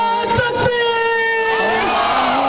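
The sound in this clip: A crowd at a protest rally chants a slogan with great force: loud, sustained shouted voices holding a drawn-out tone together, with strong rough vocal energy from start to finish.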